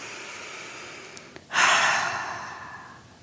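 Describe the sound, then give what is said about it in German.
A deep breath let out through the mouth: a soft rushing exhale that swells suddenly, then fades slowly. “Atme mal einmal tief ein und über den Mund wieder aus.”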